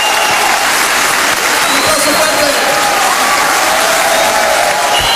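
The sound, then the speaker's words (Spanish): Dense, steady audience applause at a constant loudness for the full length, with a faint voice audible beneath it. “aplauso para Miguel Mateos, que nos invitó a nosotros nuevos.”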